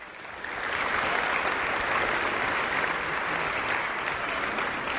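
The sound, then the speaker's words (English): A church audience applauds during a Sunday morning service. The clapping swells quickly in the first half second, then holds as a loud, dense, even wash until the end. “Let's give God a hand. This is awesome.”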